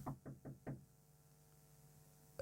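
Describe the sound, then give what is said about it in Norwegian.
Four quick knocks on a door in an even rhythm, then a steady low hum and one small click at the end. “Nå dunket det på døren.”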